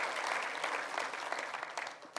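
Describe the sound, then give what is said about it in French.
Applause from a church audience praising God, a dense, even patter of many hands clapping steadily throughout without a break. “Est-ce qu'on peut applaudir notre Dieu pour qui il est ? Pour sa fidélité et sa puissance dans nos vies.”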